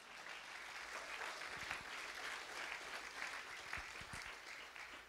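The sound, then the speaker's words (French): Congregation applauding during a church service: a faint, steady wash of clapping that lasts throughout, with some soft low thumps. “Quelqu'un acclame le Seigneur.”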